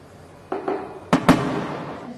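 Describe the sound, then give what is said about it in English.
Rubber bullets fired at a demonstration in the West Bank crack out as two softer pops followed by two loud, sharp bangs in quick succession, with fading noise after them. “He's been shot in the foot with a rubber bullet.”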